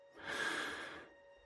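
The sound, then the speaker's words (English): A single deep breath drawn in before a bedtime story reading, a soft airy rush that swells and then tapers over about a second, quiet and alone. “Now, let's take a deep breath.”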